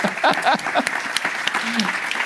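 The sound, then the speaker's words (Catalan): Applause for the official jury at a fantastic film festival event: a crowd claps in quick, crisp bursts, with a few voices calling out over it at the start, and the clapping stays lively to the end. “Un aplaudiment per al jurat oficial, que el va necessitar.”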